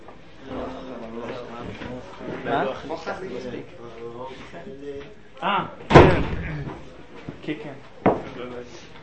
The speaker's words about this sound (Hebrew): טוב, אז בואו רק נסגור את הדלת, כדי שהרעש משם לא יגיע משני כיוונים.